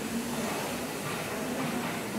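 A museum locomotive pulls a train into Karlsbad station, heard as a steady, dense rumble and hiss that stays even throughout without distinct separate events.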